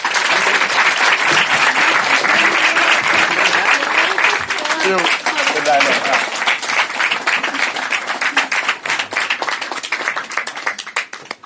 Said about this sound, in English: I want to welcome Martin up to the stage. So please, show a hand to Mama.